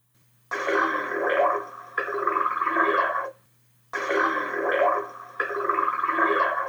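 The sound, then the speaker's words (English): Humpback whale throp calls, a social sound recorded underwater: four loud, gurgling, rasping bursts in two pairs separated by a silent pause, over a steady low hum. “It's what is described as a throp call from a humpback whale”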